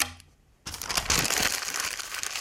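Paper is crumpled into a ball: a steady, loud crinkling and crackling begins abruptly after a quiet moment and continues without a break.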